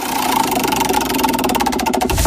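The rapid, rattling clicks of a spinning prize wheel in a news quiz game, a loud, dense stream of ticks over a continuous droning bed that becomes more distinctly spaced toward the end.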